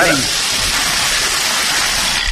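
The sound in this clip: A bingo drum spins its numbered balls, producing a dense, steady rattling hiss that stays loud and even throughout with no pauses.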